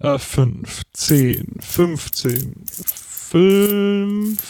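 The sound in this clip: Coins clink as they are counted and handled, with a few sharp metallic clicks mixed under a voice that talks throughout.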